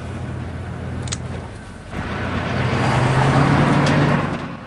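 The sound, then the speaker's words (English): Engine rumble of a police car setting off and pulling onto a highway, a broad low roar that dips briefly and then swells louder and steadier for the rest of the stretch. “Start the car. Head for the highway.”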